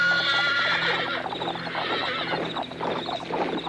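Roman cavalry horses neigh and whinny over a steady, busy clatter of trotting hooves, with a shrill neigh standing out near the start of the continuous mix.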